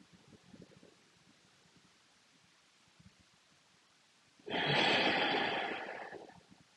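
A single long, deep breath drawn in, loud and airy with a rushing hiss that swells and then tapers over about two seconds, following a quiet stretch.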